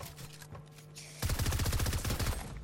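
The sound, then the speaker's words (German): Video game gunfire on a PlayStation: after about a second of quieter game noise, a dense, loud run of rapid shots starts and continues to the end. “Ich hab geschossen, ne?”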